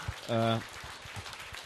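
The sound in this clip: Audience applause for a speaker at a business club meeting: a faint, dense patter of many hands continues throughout, with a brief voice near the start.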